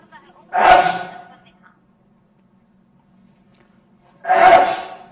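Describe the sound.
Two loud, sharp sneezes, one near the start and one near the end, each a sudden burst with a breathy tail. Near silence and a faint low hum lie between them.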